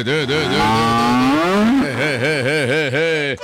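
A cow moos at milking time on a farm, a long, loud, harmonic-rich call that climbs in pitch and then wavers in a repeated wobble.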